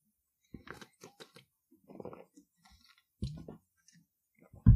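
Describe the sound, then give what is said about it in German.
Mouth and glass sounds of someone taking a sip of a drink: a few soft clicks and small gulps, then a couple of louder thumps, with no talking. “So, ich trinke jetzt nochmal einen Schluck und ich denke mal, das schneide ich dann raus.”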